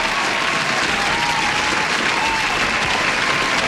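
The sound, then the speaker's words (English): Sustained audience applause from a crowd, a dense, steady clatter of many hands clapping at even loudness from start to end, with no single voice standing out. “Big, massive, huge round of applause”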